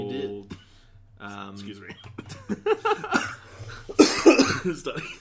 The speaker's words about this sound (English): I had a cough that like needed to come out right at the start, and I couldn't get rid of it.